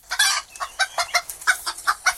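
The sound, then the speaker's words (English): Chickens cluck in a flock of about 47 hens and 3 cockerels. Many quick, sharp clucks follow one another in a busy, uneven rhythm, with no talking. “Now, how many chickens have you got here? About 50. There's 3 cockerels and about 47 hens.”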